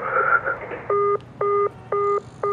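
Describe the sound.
After a caller hangs up, a telephone line gives a disconnect tone: four evenly spaced, steady electronic beeps, the last one cut off. A brief murmur of voice comes just before the beeps.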